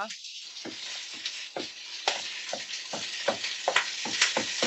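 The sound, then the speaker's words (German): Sizzling of chicken pieces frying in a pan for coq au vin: a steady crackling hiss with many rhythmic scraping strokes, like stirring, that grow slightly louder toward the end. “Kann ich das jetzt da einfach so drauf rumbrutzeln lassen? Hackst du jetzt so klein, wie du kannst. Und kann ich die Füße so drauf rumbrutzeln lassen?”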